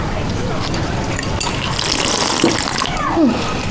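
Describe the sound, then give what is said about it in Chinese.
A tap runs steadily while hands are washed under it, a constant rush of water with a few brief splashes and knocks toward the end. “你洗手之后能不能轻点啊？你多少年了都改不过来。”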